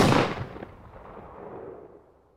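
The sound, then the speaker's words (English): A single rifle shot fired by a hunter: one loud, sharp blast at the start, followed by a long rumbling tail that slowly fades over about two seconds. “Then, he fired a single shot in the creature's direction.”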